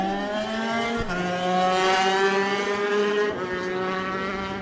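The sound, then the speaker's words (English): A lightweight two-stroke racing motorcycle pulls away from the start line at a road race, its loud, buzzing engine note holding a fairly steady pitch with a couple of brief dips. “those little two strokes as well. Michael gets away. Very quiet there though on the lightweight machine.”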